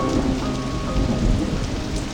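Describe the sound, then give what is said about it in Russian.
The first thunder of spring rumbles low beneath a steady, even hiss of falling rain, with no pause in the downpour. “первый весенний гром, знаменующий о том, что начался новый цикл в природе.”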